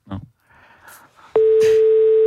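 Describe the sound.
A telephone keypad tone on an automated phone menu: after a few faint clicks and rustles, a loud, steady electronic tone cuts in abruptly and holds unbroken to the end.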